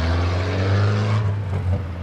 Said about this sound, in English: this car behind us can't wait to get through